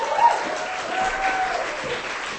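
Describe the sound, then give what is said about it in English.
An audience at a literary reading gives steady applause, a continuous wash of clapping that lasts the whole clip. “Give her a hand. Keep it going.”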